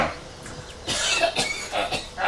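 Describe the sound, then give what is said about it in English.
A coughing fit: several harsh, hacking coughs in quick succession, each a short breathy burst, rising out of a quiet start and continuing to the end. “Sorry, I had to start hacking. Couldn't stop.”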